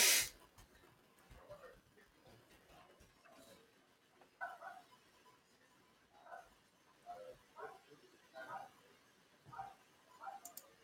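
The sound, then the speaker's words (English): Neighbor's dogs bark in many faint, short bursts at irregular intervals, clustering more densely in the second half, over a quiet background. “My neighbor dogs are barking and it's really distracting.”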